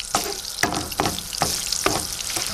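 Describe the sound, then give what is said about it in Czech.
Diced pork fat melting and sizzling in a pan with a little lard: a loud, steady hiss of frying broken by a few sharp stirring clacks at uneven intervals, with no voices. “Nakrajíme si špek, připravíme si pánev a rozpustíme špek trošku sádla.”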